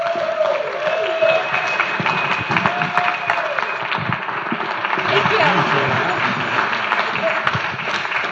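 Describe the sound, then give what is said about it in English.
An audience claps in sustained, dense applause at New City Church in Great Falls, Montana, as a guest speaker pastor and his wife are welcomed to the platform. The clapping stays steady throughout, with voices over it. “we're going to welcome he and his beautiful wife, Rachel, up to the platform so they can give him a shout out. Would you put your hands together?”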